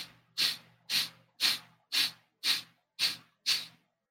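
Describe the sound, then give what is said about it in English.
Seven forceful breaths out during a breathing exercise: sharp, hissing puffs spaced evenly about half a second apart. Each one rises fast and tails off, with quiet between them. “So I'm going to watch you do it. Okay. Okay. So breathe out hard 9 times and then just chill after.”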